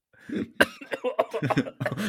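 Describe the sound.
Coughing from someone who has choked on something swallowed: a string of harsh, strained bursts mixed with voiced, laugh-like sounds.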